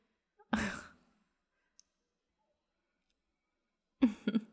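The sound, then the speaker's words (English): A single breathy, voiced yawn-like exhalation of about half a second, followed after a long silence by a brief second vocal sound. “Was that a yawn just now?”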